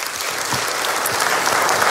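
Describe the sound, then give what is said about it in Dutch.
An audience applauds with dense, steady clapping that stays loud and even throughout, with no distinct voices on top. “Graag je applaus voor Jasper Poisson.”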